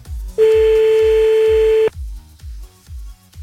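A telephone tone while calling someone back after being hung up on: a single steady beep of about one and a half seconds over a thumping background beat, with no talk.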